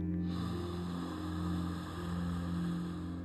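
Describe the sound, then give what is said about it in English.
A long, deep inhale through the nose during a guided breathing exercise: a steady, breathy rush of air that lasts about three seconds, with no talk. “One more. Inhale through the nose.”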